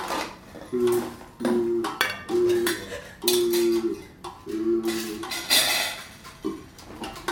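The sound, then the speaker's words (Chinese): Metal pot being handled, giving a few repeated clanks, each with a short ringing tone, mixed with lighter clatter between them. “是锅子的声音啊。”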